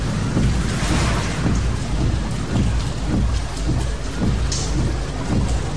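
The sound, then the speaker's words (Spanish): Rain heard from inside a car at night, a dense steady hiss of drops with recurring low rumbling swells underneath, loud and constant throughout. “Es de noche y llueve.”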